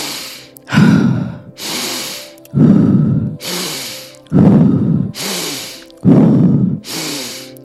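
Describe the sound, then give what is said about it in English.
Forceful breathing repeats in four cycles, each a sharp hissing inhale through the nose followed by a loud, breathy exhale through the mouth, in a steady rhythm. “So a forceful inhale through the nose and a forceful exhale out the mouth.”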